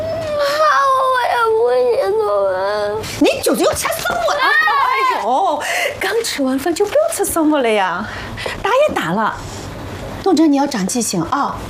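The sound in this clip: A child cries hard just after a meal while being scolded at home, with loud, wavering wails and choked sobs that come in uneven bursts separated by brief gasping pauses.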